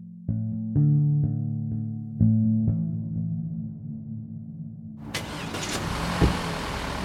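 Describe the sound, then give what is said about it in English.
A car driving through Bucha: low, steady humming tones with several soft pulses at first, then a louder broad rushing engine and road roar takes over for the last couple of seconds. “So we're driving through Bucha away from the school.”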